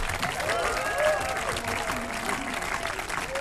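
Audience applause with some cheering after a live music performance: steady, dense clapping at a fairly soft level, with a brief swell near the start.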